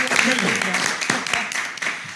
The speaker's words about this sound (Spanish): un aplauso al público también para que se oiga